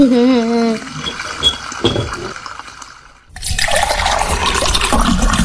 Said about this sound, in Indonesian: Eh, ngomong sama air ya, lebih bagus kalau kerannya itu ditutup. Kan airnya jadi terbuang percuma.